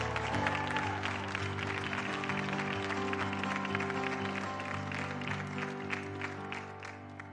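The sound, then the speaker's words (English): Audience applause welcoming a pastor onstage at a Harrison Faith event in Arkansas: steady, dense clapping sustained throughout, with music playing underneath. “Without any further ado, give it up for my friend, a warm Harrison Faith welcome for Pastor Micah McDonald.”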